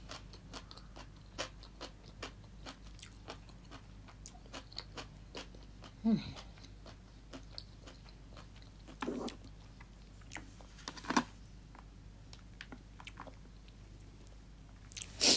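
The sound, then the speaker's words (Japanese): Crunchy chewing of daikon radish eaten as a palate cleanser during a meal, many crisp, quiet bites in an irregular rhythm, with a few louder crunches standing out. “こうやって大根とか箸休めで食べないと結構しんどいかも。”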